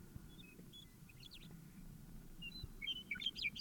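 Bird calling: a few short, high chirps, faint and scattered at first, then clustering more densely toward the end over a steady low rumble.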